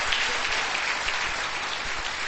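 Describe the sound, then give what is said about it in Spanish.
Church audience clapping steadily in a continuous, dense burst of applause. It holds an even level throughout the short stretch, with no voices standing out. “Dele un buen aplauso al Señor y nos despedimos en esta hora.”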